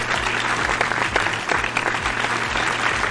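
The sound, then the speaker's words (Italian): Audience applause during a standing ovation, dense steady clapping that carries evenly from start to finish without pause. “Standing ovation del nostro pubblico.”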